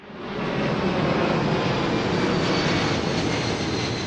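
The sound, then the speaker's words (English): A low-flying airplane roars over a leafy residential neighborhood in the flight path of an international cargo-hub airport, its loud, steady jet-engine rumble swelling in over the first half-second and then holding evenly. “That might sound like an airport runway, but it's actually a leafy residential neighborhood in Memphis called Cooper Young, and it's right in the flight path of Memphis International, home of FedEx.”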